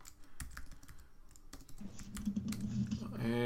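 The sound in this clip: Keys clatter on a computer keyboard as a search is typed, with many quick, irregular clicks that stay fairly quiet throughout, over a low background murmur.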